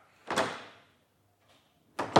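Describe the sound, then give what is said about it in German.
A door being closed quietly, heard as two soft closing thuds with a faint tap between them. Each thud has a brief low knock and a short, fading rattle, with near silence in between. “Ich musste die Tür leise zumachen. Noch einmal und noch einmal.”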